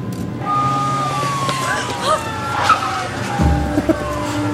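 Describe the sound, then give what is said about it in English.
Tires squeal as cars skid and nearly hit a pedestrian in a film scene, with several sharp screeching streaks over a rumbling engine bed and a low thud near the end. “I could watch her almost get hit by cars over and over and over and over.”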